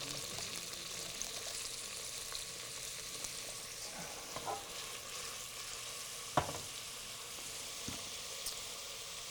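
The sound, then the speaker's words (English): Chopped onion frying in shimmering hot oil in a pan: a steady, broad sizzling hiss with scattered small pops and crackles, one sharper pop standing out, and no voices. “All right, we're going to add some chopped onion.”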